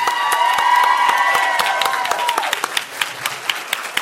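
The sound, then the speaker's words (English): Audience applause and cheering as two guests are welcomed on stage with a standing ovation: many sharp claps throughout, with sustained voiced cheers and whoops in the first half that fade out, leaving scattered claps. “For those of you listening at home, standing ovation for Kim and Ed.”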